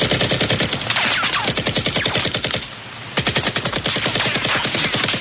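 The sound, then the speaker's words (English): Rapid automatic gunfire from a machine gun during an action film shootout: a loud, dense stream of sharp shots that breaks off briefly near the middle, then resumes at the same fast rate. “starts shooting at Rambo, runs out of ammo. Takes out his handgun, starts shooting”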